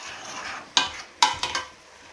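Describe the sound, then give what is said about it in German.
Leek being stirred into a large pot of browned meat, with a soft sizzle under a few sharp clinks and scrapes of a spoon against the pot. “So, jetzt gebe ich den Lauch dazu. Ein bisschen Farbe hat das Ganze schon genommen. So. Und dann rühren wir das gleich mal ein.”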